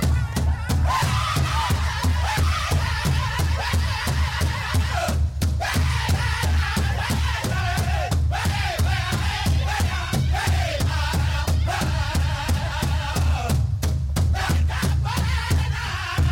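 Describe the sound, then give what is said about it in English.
Crowd ululating and shouting war cries at a live indigenous cultural music event, a loud, dense, continuous roar of many voices with wavering trilled cries and sharp bursts of shouting throughout. “Where's the lulus and the war cries? Let me hear it right now, y'all.”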